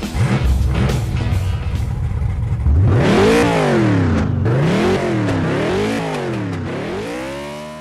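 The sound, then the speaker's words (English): A race car engine revs and accelerates at a race start: a low rumble gives way to a loud, harmonically rich roar that climbs in pitch several times in a row as it shifts through gears, then holds strong to the end. “Strap in, window nets up, the pedals are down, and when the green flag drops, we go.”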